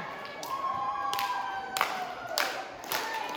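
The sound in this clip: Wrestling crowd cheering for a wrestler fighting back during a match, a continuous roar of voices broken by a few sharp bursts and dull thumps, with a sustained tonal cry running through the noise.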